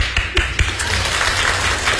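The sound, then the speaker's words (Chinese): Audience applause in a radio studio: dense, steady clapping that fills the whole stretch, with a few louder claps standing out early on. “谢谢，再来点掌声。”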